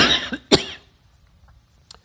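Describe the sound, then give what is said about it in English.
Coughing from a person fighting a cold: two harsh, loud cough bursts in quick succession, followed by near silence with a few faint throat sounds. “I beg your pardon. It's been a tough week. I've been fighting the cold and fighting the cough.”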